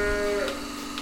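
A cow moos on a breeding farm with calves, giving a brief, low, drawn-out call over a steady background hum.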